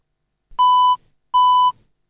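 Two identical electronic beeps sound from an audio labeller after its button is pressed. The beeps are steady, mid-pitched and clear, each lasting under half a second, with a short gap between them.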